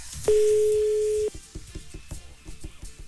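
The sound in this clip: Telephone ringback tone while placing a call: one steady, fairly loud tone lasting about a second, followed by fainter irregular clicking and rustling.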